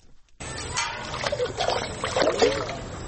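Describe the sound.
Sloshing, splashing water as a woman carries water from a pond at dawn, irregular bursts of moderate loudness beginning after a brief silence at the start.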